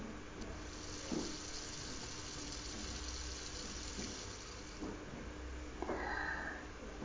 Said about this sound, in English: I'm gonna rinse off.